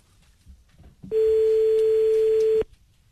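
A telephone tone sounds while a call is being placed: one steady, unchanging electronic note lasting about one and a half seconds, loud against faint background noise before it.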